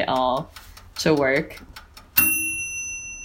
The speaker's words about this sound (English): That was the sound of my brand new toaster oven being used for the first time ever on sourdough bread that I just got from Zeppoli